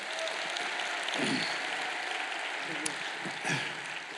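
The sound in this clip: An audience applauds to welcome a speaker onto the stage at a faith gathering, with dense, steady clapping throughout and a few brief voices rising over it.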